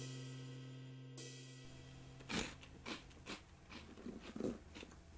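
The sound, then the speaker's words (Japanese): Faint crisp crunching of someone eating cheese balls: a handful of soft bites and chews spread across the second half after a quiet start, over a low steady hum. “今日もチーズボール食べてます。”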